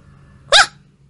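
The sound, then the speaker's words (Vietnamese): One short, growling dog bark from a narrow alley somewhat far off, a single sharp burst over faint background hum. “Mãi cho đến khi một tiếng chó sủa gầm gào vọng ra từ trong lối đi nhỏ nào đó.”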